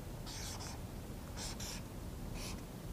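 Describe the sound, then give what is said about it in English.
A marker writes numbers on paper in three short bursts of quiet, squeaky scratching strokes, separated by pauses over a faint steady hiss. “The sound of that marker gives me ASMR.”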